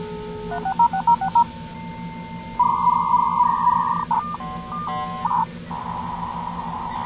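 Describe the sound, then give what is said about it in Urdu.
Telephone keypad tones dial a number to connect a dial-up internet line: a quick run of short beeps, then a long steady tone, more short beeps and another sustained tone, all over a low constant hum. “کون سا number dial کر رہی ہو؟ 3660033 dial کرو نا.”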